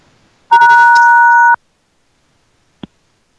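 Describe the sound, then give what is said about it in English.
A telephone rings with an incoming call from an unknown caller. A single steady electronic tone lasts about a second, followed by silence and one brief click. “Okay. There, it hung up. Alright, maybe we get a call. Oh, we have an unknown caller calling, so this could be anybody.”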